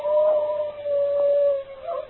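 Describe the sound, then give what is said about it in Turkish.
A wolf howls in one long, steady, mid-pitched tone that dips briefly and resumes, holding loud and alone over faint background noise. “Baba, evlat, oğul can derdindeyken bir kurt daha uludu.”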